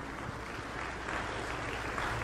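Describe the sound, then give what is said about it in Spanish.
Faint, steady applause from a Catholic church audience at a Friday prayer meeting, a dense patter of clapping hands that holds at an even, low level throughout without breaks. “Merecen un aplauso ustedes, hermanos.”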